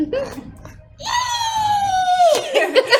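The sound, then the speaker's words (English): A voice imitates the horrid shriek of a wounded spider creature: a sustained, piercing, slightly falling screech of a little over a second, with brief vocal sounds before and after it. “green ugly blood spouts from the wound, and he lets out a horrid shriek from his tiny little head.”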